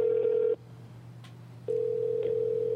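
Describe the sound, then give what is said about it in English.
A steady telephone tone hums as a call is placed, drops out for about a second, then resumes at the same even, mid-pitched drone. “All right, here we go. We're getting him on the line.”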